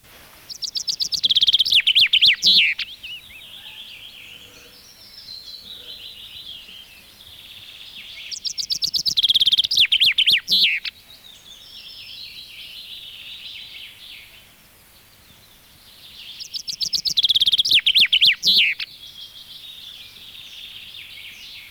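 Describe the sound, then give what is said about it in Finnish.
A common chaffinch, a mixed-forest bird, sings three separate song phrases. Each is a bright, rapid trill lasting about two seconds and ending in a sharper flourish, with long quiet pauses between the phrases. “Lehtiä sekametsien lintuja. Peippo.”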